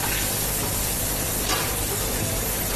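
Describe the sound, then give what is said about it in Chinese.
Fish pieces sizzle in heated oil in a pan, making a steady, even hiss and crackle of frying that carries through the whole clip with no talk. “油烧热以后放入鱼块， 离远点，离远点”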